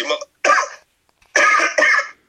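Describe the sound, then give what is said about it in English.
Coughing from a man with pneumonia: four harsh, loud cough bursts in two pairs, the second pair coming right after a brief silence. “Forgive him for his coughs.”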